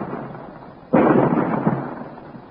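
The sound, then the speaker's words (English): Rock splits apart under cannon fire: one sudden, loud crashing burst about a second in, then a dense crumbling roar that slowly fades. “Fire! Look, the rock is splitting.”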